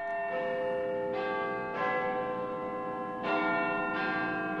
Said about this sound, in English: That, of course, is London's Big Ben marking the quarter hour.